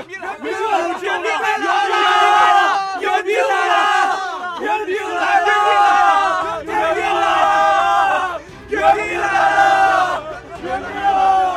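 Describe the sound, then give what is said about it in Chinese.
A crowd of soldiers bursts into loud cheering inside the enclosed gateway tunnel of a besieged city gate after reinforcements arrive, a dense, sustained roar of many shouting voices with brief dips and a low hum joining later. “众人都静了片刻，然后轰然一声欢呼起来，欢声在瓮洞洞壁上来回撞击，收拾不住，猛地冲出洞口，迸发了出去。”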